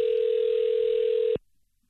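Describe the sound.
A telephone dial tone: a steady, unbroken mid-pitched tone that holds for over a second, then cuts off abruptly and leaves near silence.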